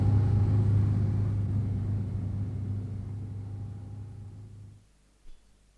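A car pulls away with a low, steady engine rumble that gradually fades and then cuts out, leaving near quiet broken by one brief faint knock.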